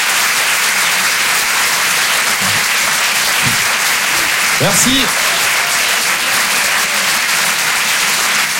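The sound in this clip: An audience at a comedy show applauds a stand-up comedian with steady, dense clapping that stays loud throughout. A man briefly says a few words over it.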